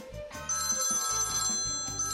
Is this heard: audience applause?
no